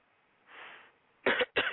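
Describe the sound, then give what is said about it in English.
Two loud, harsh coughs come in quick succession near the end, after a mostly quiet stretch. “Excuse me for coughing.”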